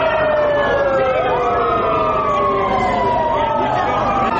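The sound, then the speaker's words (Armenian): Police car sirens switched on at a protest outside a government building: several loud wailing tones overlap and sweep up and down continuously. “Ոստիկանական մեքենաների ազդանշանները միացնելով փորձեցին խլացնել Բագրատ արքեպիսկոպոս Գալստանյանի ձայնը։”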